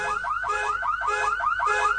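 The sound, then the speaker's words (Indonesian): A car alarm blares in a parking lot with the car's hazard lights flashing, a loud, steady cycle of rapid rising electronic whoops repeating many times without pause. “Lalu yang kulihat, lampu hazard mobil menyala, dan alarm juga berbunyi.”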